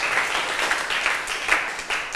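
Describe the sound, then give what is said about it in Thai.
Students in a classroom lesson applaud themselves, a continuous dense patter of clapping that stays fairly even throughout. “นักเรียนเก่งมากปรบมือให้ตัวเองหน่อย”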